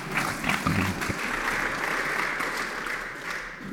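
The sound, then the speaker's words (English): An audience greets Fabiola Gianotti, Director General of CERN, with applause as she joins a show as its guest. The clapping is dense and steady and stays loud for a few seconds. “Yeah, please give a big hand to Fabiola.”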